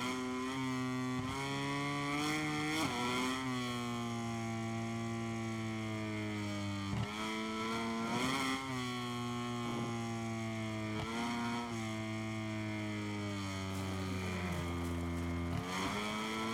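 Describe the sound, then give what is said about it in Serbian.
A MotoGP motorcycle engine in a video game revs hard and steadily throughout. Its buzzing tone climbs and then drops several times in distinct steps, like gear changes. No one speaks. “Da, da, pokrenuo sam motor, bravo.”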